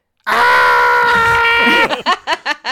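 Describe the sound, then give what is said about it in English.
A voice imitates a character's scream in a tabletop role-playing game. It starts abruptly with a loud, high, sustained yell held for about a second and a half, then breaks into several short laughing bursts. “It doesn't end gradually; it ends abruptly. So he picks up mid scream from where he's cut off.”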